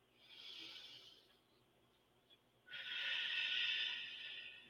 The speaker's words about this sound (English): It always makes me feel better to take a few deep breaths.